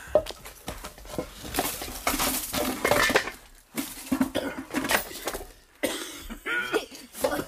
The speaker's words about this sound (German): Sie haben schon besser gehustet. Der Staub. Sie haben auch schon besser gehustet.